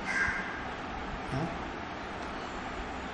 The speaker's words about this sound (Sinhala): සද්දේ ඇහෙනකොට අපි දන්නවා කාක් එක්ක ඉන්නවා. මොකද අපි ඒ සද්දේ අඳුරනවා කාක්කා කියලා.